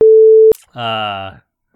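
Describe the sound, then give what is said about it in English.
A censor beep: one steady pure tone, loud and about half a second long, cut off abruptly and followed by a short burst of voice. “I'm thinking, should I just blank that out? Maybe. Yeah, I should just beep that out.”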